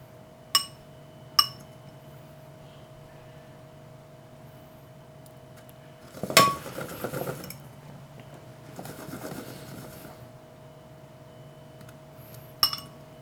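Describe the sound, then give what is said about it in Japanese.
A fork clinks and scrapes as egg-coated stuffed Italian olives are scooped from beaten egg and dropped into breadcrumbs. Two sharp clinks come early, then two longer scraping rustles in the middle, then a final clink. “フォークですくい上げて卵液をこう切ってあげてパン粉のところに放り込む”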